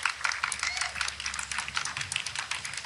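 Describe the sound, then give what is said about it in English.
Sparse clapping from a few people at a reception for the president as he walks a long way up to the podium, with irregular, uneven claps running steadily throughout. “Okay, now you're hearing like four people clapping.”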